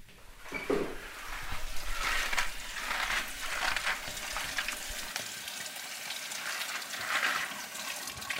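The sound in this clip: Tap water runs as vegetables are washed in the shared kitchen of a co-living project in Schleswig-Holstein. A steady rush of water with intermittent splashes and rinsing surges, moderately loud, with no talk.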